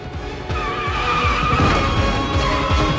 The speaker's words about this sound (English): The car speeds forward, knocking into obstacles and swerving from side to side.